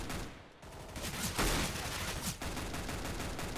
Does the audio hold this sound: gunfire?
yes